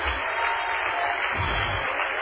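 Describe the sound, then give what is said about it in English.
Congregation clapping hands at a church service, a dense, steady wash of applause that fills the whole clip at a fairly loud, even level, without clear individual claps standing out. “Clap your hands for the Lord tonight.”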